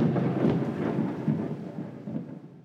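Rolling thunder as a sound effect for a Call Lightning spell cast in a game, a sustained, moderately faint low rumble that swells slightly in the first second and then slowly churns on.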